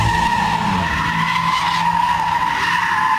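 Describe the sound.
Car tires screech as a driver drifts a car in Gaziemir, İzmir, a loud, steady squeal held through the whole stretch with engine noise beneath and no voices.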